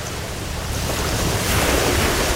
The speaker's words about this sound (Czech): já prostě slyším ten příboj a jdeme si to dát na pláži.